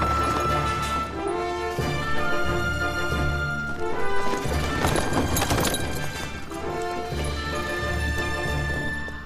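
Horse hooves clip-clop as a horse-drawn carriage rolls along, a continuous rhythmic clatter over a low rumble, swelling into a louder, busier stretch midway before settling back to a steady pace.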